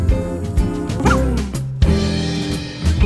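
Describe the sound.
A dog barks and yips a few times, loud and bright, set among steady tonal sound with no talk.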